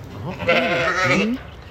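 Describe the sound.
A sheep gives a single wavering, nasal bleat lasting about a second, fairly loud and heard on its own without talk.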